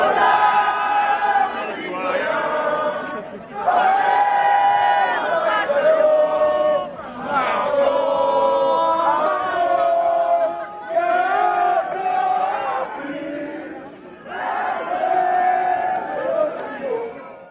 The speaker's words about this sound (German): In Rouen demonstrieren die Einwohner in Gelb und singen dabei laut die französische Nationalhymne.